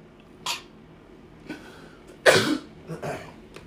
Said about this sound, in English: I informed you all that I was under the weather, so I will not be restarting. Because usually I would restart if I sneeze or cough or anything.